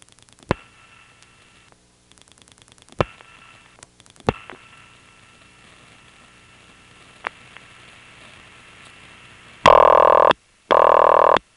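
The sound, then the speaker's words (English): Telephone ringing on a called-back trunk line: low mains hum and a few sharp switching clicks, then two loud, buzzing ring bursts close together at the end. “Let's call it back and we'll get a triple ring, and then We'll do a long flash to reset the trunk, and we'll dial a double ring.”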